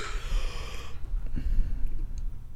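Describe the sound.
Loud, exaggerated breathing from a person deliberately breathing noisily, with a rushing airy inhale at the start followed by rougher, snorting breaths and exhales.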